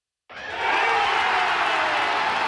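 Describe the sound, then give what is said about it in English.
Baseball fans at a ballpark cheering the final out of a win: a dense, loud crowd roar bursts in after a moment of silence and holds steady to the end. “That's the sound of fans at Truist Park celebrating the final out of last night's Braves win against the Philadelphia Phillies.”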